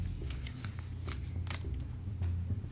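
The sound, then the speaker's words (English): A paper business card is handled, giving soft papery rustling with several crisp flicks and snaps scattered throughout, fairly quiet with no voices. “I have a business card. This is my professional business card.”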